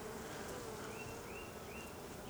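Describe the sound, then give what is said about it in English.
Honey bees crowding a hive frame that holds only foundation, giving a faint, steady buzzing hum with a few thin whining tones drifting over it and no voices. “This one just has foundation. Bunch of bees on it, just walking around doing nothing here.”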